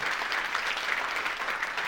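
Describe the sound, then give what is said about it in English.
An audience applauds a man at a live talk, giving a continuous, dense round of clapping at an even level from start to finish. “Let's give a round of applause for Richard.”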